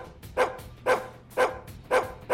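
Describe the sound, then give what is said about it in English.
Four evenly spaced, sharp barks come from dogs inside a radio studio. Each is a short, mid-pitched woof with quiet gaps and a faint background hum. “there's like nine in here right now. Yes, and then there's like all the other DJs have dogs. So, you know, this is a dog-friendly environment.”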